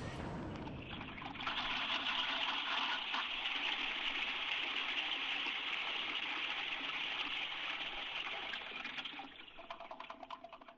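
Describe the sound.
A toilet flush: loud, steady rushing gush of water that holds for about nine seconds, then thins and tapers to a trickle, with no voices.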